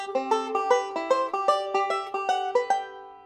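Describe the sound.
Acoustic guitar fingerpicking a repeating middle, index, middle, thumb right-hand pattern through a scale, played alone as many evenly spaced plucked notes in a steady rhythm, with the last note ringing out and fading.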